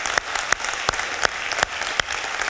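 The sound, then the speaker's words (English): Audience applause at a church service in San Marcos, given to welcome online viewers: dense clapping with sharp, evenly spaced claps that stand out in a steady rhythm throughout. “Would you please give them a hand right now? Welcome them to San Marcos.”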